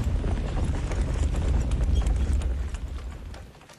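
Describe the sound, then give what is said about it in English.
A cart pulled by a groaning, grunting ox barrels past on a road, a dense run of clopping hooves over rolling rumble that stays loud and then fades away near the end. “I had to jump out of the road as a cart pulled by a groaning, grunting ox came barreling past.”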